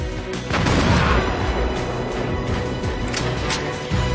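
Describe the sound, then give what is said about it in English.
Shotgun blasts in a video game: a few heavy, booming shots punch through a dense, continuous wash of loud game noise. “Such accuracy with the shotgun.”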